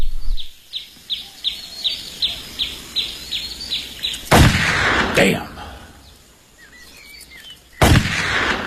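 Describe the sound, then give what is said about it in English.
Three loud, sharp gunshots from a black-powder gun fired at playing cards, spaced a few seconds apart. A rapid run of regular, high bird chirps comes before them. “What are you shooting at? Playing cards. I used to could split them at 30 paces. Stop wasting powder.”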